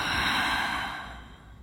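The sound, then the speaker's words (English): A slow, full exhale after a deep breath, an airy, breathy rush that starts strong and gradually fades away, heard alone without talk. “take one deep breath and breathe out fully.”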